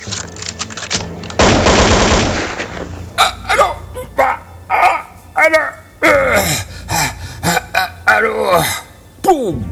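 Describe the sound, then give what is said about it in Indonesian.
Rapid gunfire during a prison escape over a wall: a loud, dense burst of shots lasting about a second and a half, followed by agitated voices. “sada bedil keur aya nu ngosea.”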